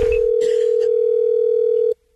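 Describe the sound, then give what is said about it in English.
A telephone line tone as a prank call is placed: a loud, steady, unbroken tone that holds for about two seconds, then cuts off abruptly. “I'm calling because it's Sarah's turn. It's Gavin's phone scam on the wake-up call.”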